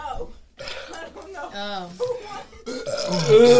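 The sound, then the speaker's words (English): People burping in turns during a drinking game, a string of loud, drawn-out, croaking belches with short gaps between them, the last ones rougher and louder. “It turned into a burp fest.”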